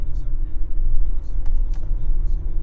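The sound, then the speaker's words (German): A vehicle drives with border guards through dense, deserted forest toward a border fence, giving a steady, loud low rumble of engine and tyres with faint higher ticks and rattles on top. “Wir fahren mit den Grenzwächtern durch den dichten, menschenleeren Wald bis zum Zaun.”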